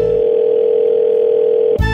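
A telephone dial tone, heard before a call is placed, holds as a single steady, loud tone for almost two seconds, then stops with an abrupt click and a brief change of sound.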